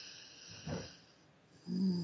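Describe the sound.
Faint breathing during a relaxation exercise, a deep breath and a slow exhale, heard as soft airy rushes with no talking over them.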